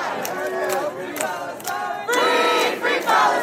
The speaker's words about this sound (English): That's the sound of chanting early this morning on Columbia University's campus.